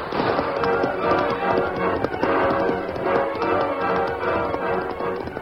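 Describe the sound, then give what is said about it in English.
A horse gallops away at a fast pace from an arroyo in a Western drama scene, with a dense, rapid and steady drumming of hoofbeats that stays loud throughout and has no voices over it. “Ranger rode Silver at a fast pace from the arroyo and raced away from the posse”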